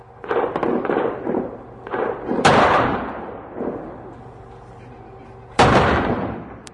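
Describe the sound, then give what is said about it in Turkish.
Artillery fire booms over the old Sur district of Diyarbakır in a series of sharp blasts. Two are much louder than the rest, each followed by a long, fading rumble. “Diyarbakır her güne bu patlama sesleriyle uyanıyor. Her patlama Diyarbakırlıların yüreğini dağılıyor. Biliyorlar ki duydukları her top atışı bir can alıyor”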